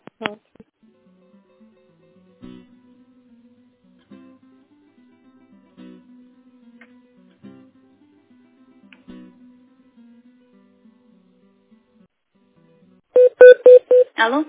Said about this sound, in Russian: Я вас сейчас переведу на заведующую, Татьяну Евгеньевну